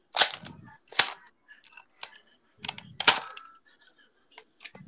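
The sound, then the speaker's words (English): A Nerf gun fires in a series of sharp plastic snaps and clicks. A few louder pops stand out, with many smaller mechanical ticks scattered irregularly between them. “That is a Nerf gun. Literally sounded the exact same. I didn't hear a difference.”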